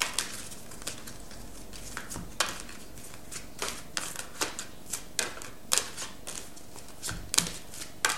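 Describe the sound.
Cards drawn from an oracle-style reading deck make sharp tapping and flicking clicks, scattered irregularly, some louder than others, with soft shuffling between them and no talking.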